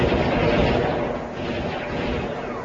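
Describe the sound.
Loud gunfire and explosive booms from a war video game form a dense, continuous barrage for a few seconds, with no voices.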